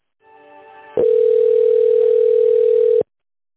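A telephone tone sounds while an outgoing call to a business is being connected: a soft buzzing tone first, then a loud, steady single-pitch tone holding for about two seconds before it cuts off abruptly.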